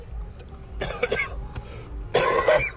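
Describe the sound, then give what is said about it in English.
Coughing and throat clearing from someone with honey roasted peanuts stuck in the throat, in two rough bursts, the second louder and longer. “I was eating some peanuts, and they got stuck in my throat.”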